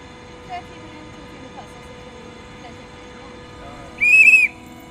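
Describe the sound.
Outdoor ambience right in front of a train station, with a low steady background and a few faint short sounds, then a loud, high whistle near the end.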